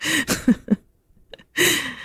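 Breath exhaled with the mouth closed and the tongue pressed to the roof of the mouth, heard as a few soft, breathy rushing bursts with brief low voiced sounds and a near-silent gap between them.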